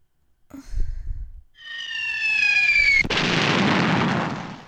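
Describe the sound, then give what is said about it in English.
Missile launch sound effect: a thin, whistling tone that sinks slightly in pitch, then a sharp burst into a loud, sustained rushing roar that carries to the end. “Missiles. Yep, missiles.”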